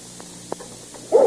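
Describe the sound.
One short dog bark sounds at the very end, after near-silence broken only by a few faint soft taps.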